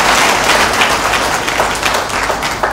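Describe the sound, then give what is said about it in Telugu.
Audience applause in honour of great poets, dense and steady clapping from many hands, loud and even for just under three seconds. “ఒకసారి అలాంటి మహాకవులకు ఒకసారి చప్పట్లు కొట్టండి, అలాంటి పుణ్యం.”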